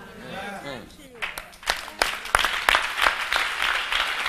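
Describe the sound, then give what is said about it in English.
A church audience claps during a sermon. A man speaks briefly, then scattered claps start and build into steady, fairly loud applause. “Wow. Lord, bless those who are clapping.”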